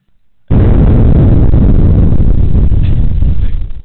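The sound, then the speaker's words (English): A bomb explosion sound effect bursts in abruptly after a brief quiet moment. It becomes a loud, sustained roaring rumble that eases off slightly at the very end. “And then when you're done, the bomb drops. Boom.”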